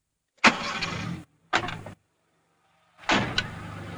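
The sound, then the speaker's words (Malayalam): A vehicle engine gives three loud, rough, noisy bursts separated by silent gaps. The first burst is the longest, the second is short, and the third starts after a longer pause and runs to the end. “ഒരു വണ്ടിയുടെ ശബ്ദം പോലെ തോന്നി.”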